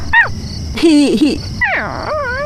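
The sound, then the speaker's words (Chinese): A Labrador dog whimpering and yipping in a few short, high, whining bursts with sliding pitch, separated by brief pauses. “拉布拉多，这只狗叫拉布拉多。”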